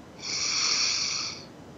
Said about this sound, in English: As we take a deep breath in